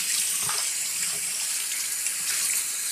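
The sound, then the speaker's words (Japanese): Shower water runs while hair is rinsed, a steady, bright hissing spray that stays even throughout with no talking. “こうしてシャワーを流すだけでも、髪の汚れはほとんど取れてしまうそうですよ。”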